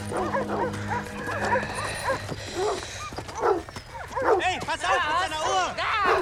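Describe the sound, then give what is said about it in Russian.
A dog set loose on a prisoner barks and yelps in rapid, excited bursts that grow denser and louder in the second half, with voices mixed in. “На пленного спускают собаку.”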